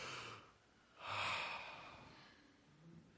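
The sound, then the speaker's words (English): A person takes a slow, deep breath: a short airy inhale, then a longer, fuller exhale that trails off gradually. It is quiet, with no talk. “I want to have us do a little bit of exercise here this morning, and that is just to pause and take a deep breath.”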